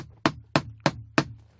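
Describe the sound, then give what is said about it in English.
A robust knock on a door, recreated: four heavy, evenly spaced thuds about a third of a second apart, each with a short decay and no talk over them. “I'll see if I've got... I can recreate here. A very robust knock on the door.”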